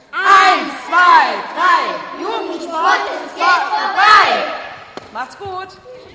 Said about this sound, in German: Da gibt es noch einen Schlachtruf, wurde mir gesagt, den wollen wir natürlich hören. Hände werden aufeinander gelegt.